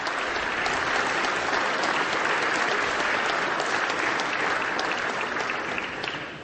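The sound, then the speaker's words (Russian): Sustained applause as a NATO summit gathering welcomes leaders: a dense, steady wash of many hands clapping together, continuous throughout and thinning slightly near the end, with no voices. “когда их официально приветствует вся группа НАТО, приветствует аплодисментами и вставанием.”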